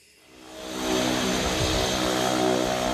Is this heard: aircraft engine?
yes